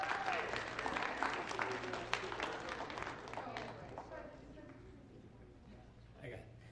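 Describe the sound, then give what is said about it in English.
Congregation applause in church welcoming a pastor who comes forward to share with the children, a steady wash of many hands clapping that gradually thins and fades toward the end. “And church, if you can, please put your hands together and give a very warm welcome to Pastor Pepe as he comes to share with our children this morning.”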